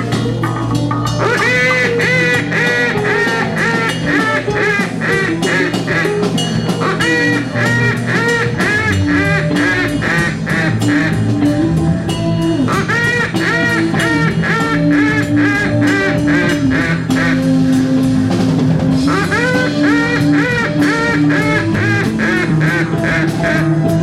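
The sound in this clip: A duck call blown as a full-range heel call produces a loud, continuous run of many rapid, nasal quacking notes, with no pause across the stretch.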